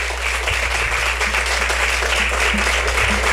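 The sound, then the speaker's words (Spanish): Applause for colleagues at the end of a day's work. A loud, dense clatter of many hands carries on evenly throughout over a low hum. “Yo quisiera, por favor, rápidamente pedir un fuerte aplauso para mis compañeros que han hecho un gran trabajo hoy.”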